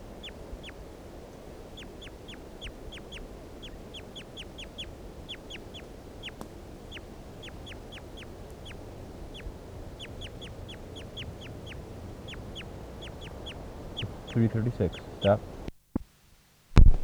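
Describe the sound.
Bird calls from a recorded study bird: many short, sharp chirps repeated in a quick, irregular series over steady background hiss, with a few louder thumps near the end.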